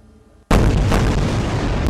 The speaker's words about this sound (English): Tonight, the Israeli Air Force lighting up the sky, pounding the Gaza Strip.